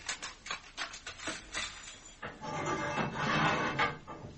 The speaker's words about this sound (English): open the cell block.